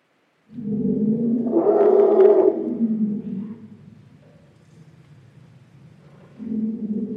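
Elephants call at the birth of a new baby elephant. A long, loud, low rumbling call swells and then fades, and after a quiet pause a second low call starts.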